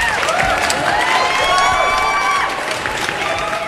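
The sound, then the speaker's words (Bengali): A crowd claps and cheers in a continuous, lively round of applause. Wavering high tones weave through the dense clapping, which stays loud and eases slightly toward the end. “কিন্তু তোমার এই যে celebration, এই স্পিরিটটার জন্য একটা হাততালি দাদা।”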